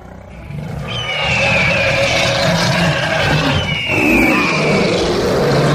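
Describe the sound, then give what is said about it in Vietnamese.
Countless wild beasts roar across a mountain range, a dense, layered, continuous rumble that swells after the first second and stays loud and unbroken to the end. “Lúc này vô số man yêu thú ở khắp nơi trên dãy núi bất chợt gầm gào bỏ rạp”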